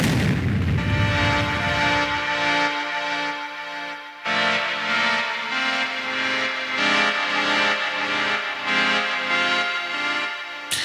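A sonic boom sound effect: a loud, rumbling booming blast opens, then gives way to a sustained ringing tonal sting that lasts to the end.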